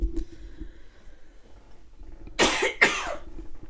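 Two sharp coughs from a person with allergies, loud and close together near the end, after a stretch of near quiet.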